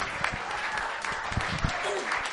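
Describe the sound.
A church audience claps in praise of the Lord during worship, with steady, fairly soft applause running throughout and voices mixed in.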